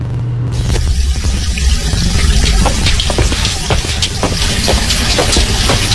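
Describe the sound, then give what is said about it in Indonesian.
Water rushes from a wide-open tap fed by the mains supply: a steady, fairly loud splashing hiss that runs without a break, with small irregular spatters riding on top. “Kok seperti ada suara air? Iya, Pak, benar. Itu humpung air dari PDAM-nya mengalir. Jadi Ibu buka besar ya kerannya?”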